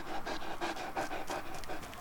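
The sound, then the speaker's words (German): A dog pants in quick, even, breathy bursts, a steady rhythm of rapid breaths throughout, fairly loud and alone. “Na, komm her, feiner Hund. Komm.”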